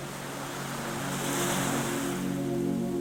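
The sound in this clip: Stormy sea waves wash against a fishing boat in a continuous, rushing roar. The surging noise stays steady and loud throughout, with no voices.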